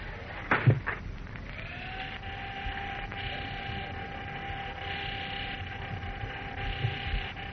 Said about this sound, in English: Ah, here we are. Here comes the elevator. A lobby, please.